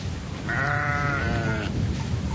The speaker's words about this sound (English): They allow hundreds and thousands of sheep and goats to walk across here, and any green thing that sticks up its head is food,